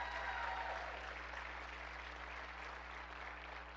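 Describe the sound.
A church audience applauds its lead pastor with a thick, steady wash of clapping that starts strongest and eases slightly toward the end, many hands blending into continuous noise.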